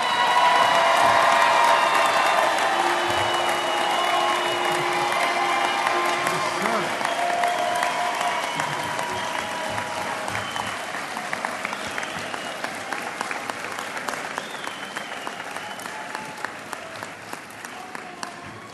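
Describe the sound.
Applause from an audience at a National Federation of the Blind convention welcoming a reading-technology company's chief executive, with some cheering mixed in. Dense, sustained clapping is loudest at the start and slowly thins and fades over many seconds.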